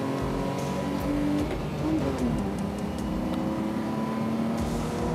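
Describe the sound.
A race car overtakes at a corner of a Formula 1 circuit: a continuous loud engine drone whose pitch shifts as the cars run close together.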